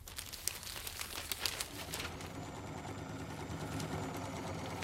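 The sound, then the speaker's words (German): A sewing machine stitches a skirt for a dance-competition costume, with a steady whirring, buzzing run and a few sharper clicks and rattles in the first two seconds. “Ihr Vater, ein Kohlekumpel in Frührente, hat allerdings kein Verständnis dafür, während die Mutter fleißig am Kostüm näht.”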